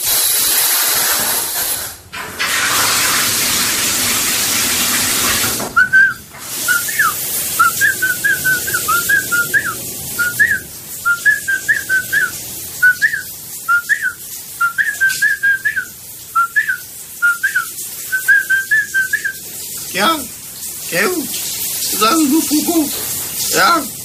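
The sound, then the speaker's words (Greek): Steady hiss of shower spray, then a man whistles a short, familiar chant-like tune in many quick repeated phrases, a little limp and tired, over the running water. “Όμως, επειδή ο ίδιος είπε ότι σφυρίζει, ξαναμπαίνουμε πάλι στον ντουζ να ακούσουμε τι ακριβώς σφυρίζει.”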